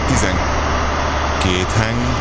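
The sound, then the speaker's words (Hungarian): Tatra truck engine running with a loud, steady low rumble throughout, as people talk briefly over it toward the end. “Ó, várjál, még egy kicsit ezt a Tátrát.”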